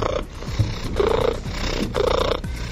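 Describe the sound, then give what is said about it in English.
A cat's solicitation purr mixed with a baby-like cry: a rough, low, pulsing purr runs throughout, and two louder wailing cries rise out of it, with no voices. “Unlike regular purring, the sound incorporates a cry with a similar frequency to human babies.”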